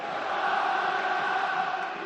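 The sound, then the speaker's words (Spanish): Football fans sing together in Valencia's Mestalla stadium after Las Palmas score to make it 1-2. A sustained, blended wash of many voices holds steady tones without clear breaks. “Bueno, pues ya tenemos rumba aquí en Mestalla con el 1-2 de la Unión Deportiva Las Palmas. Sigue cantando Mestalla.”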